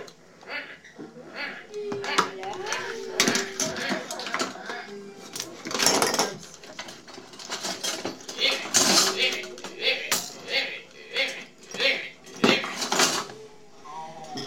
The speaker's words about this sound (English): He taps the measuring cups on his sneaker and then returns them to his mouth.